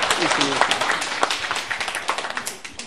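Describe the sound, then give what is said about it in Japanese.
Roughly eight people at a club meeting clap to approve the president and officers. The quick, uneven claps are individually audible under overlapping talk, and they thin into more distinct separate claps toward the end. “一応会長の承認というか、ここで拍手をもらいたいと思いますが、よろしいでしょうか。”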